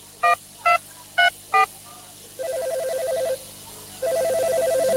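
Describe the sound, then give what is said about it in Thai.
Telephone keypad tones and ringing on a call to an anti-corruption hotline: four short, sharp dialing beeps in quick succession, then two long, steady ringback tones. “พ่อโทรแจ้งสายด่วนปปช.1205 นั่นแบบก็โทรเลยแล้วกันนะ”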